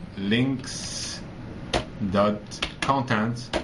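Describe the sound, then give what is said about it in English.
Computer keyboard typing while coding in Visual Studio: a few sharp key taps scattered under a person's steady talk. “The reason I'm typing it outside is because Visual Studio has a limitation that it does not give you when you're in the quotes, right?”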